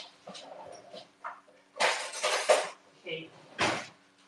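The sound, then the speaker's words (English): Cutlery clinks and rattles as a knife is grabbed at lunch to cut fresh, unripe bananas, with a few short metallic clatters and scraping bursts between quieter handling noises. “Right. I need a knife. Okay.”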